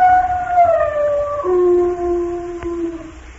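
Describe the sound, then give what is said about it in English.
A dog howls in long, drawn-out tones that step lower in pitch, sounding almost like singing, with a brief click near the end. “the dog thought that he had a very fine singing voice. He didn't know that to real people his singing voice would sound like this.”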